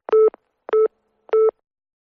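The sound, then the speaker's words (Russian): Three short, evenly spaced telephone beeps sound on their own while a call is placed for an ambulance. Each beep is a steady mid-pitched tone with a buzzy harmonic edge, followed by a brief pause. “Дедуля, скорую вызову. Это я тебе скорую вызываю.”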